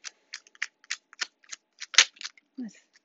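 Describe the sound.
Tarot cards being shuffled and drawn: many short, crisp flicks and snaps in an uneven rhythm, fairly faint, with a softer, lower rustle near the end.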